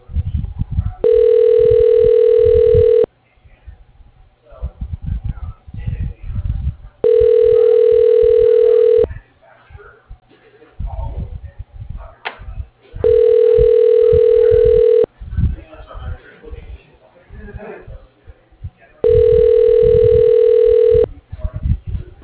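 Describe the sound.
A telephone call rings out unanswered: four long, steady ringback tones of about two seconds each, evenly spaced, with low muffled noise filling the gaps between them.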